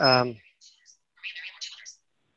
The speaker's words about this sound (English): my phone is ringing. I will put that on to vibrate.